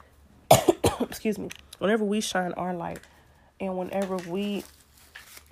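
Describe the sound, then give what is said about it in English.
A couple of sharp coughs burst out near the start, followed by short voiced throat sounds. The whole passage is fairly quiet. “I don't know why I'm coughing right now. Excuse me.”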